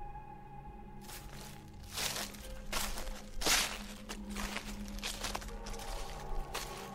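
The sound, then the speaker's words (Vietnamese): Footsteps crunch on dry leaves, a steady series of rustling, crackling steps over a low, constant drone. “nghe rõ tiếng bước chân dẫm lên trên lá khô cứ sột xà sột soạt”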